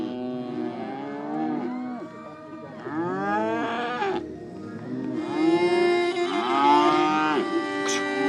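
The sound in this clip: Calves mooing at a livestock competition: several long, drawn-out moos that overlap and vary in pitch, loud and steady throughout with no talk.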